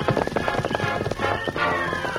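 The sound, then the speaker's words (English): Horse hooves clip-clop as horses ride off toward a trail, a dense and rapid run of loud hoofbeats with a steady tonal layer underneath throughout. “We'll ride out to the trail. Come on, Silver.”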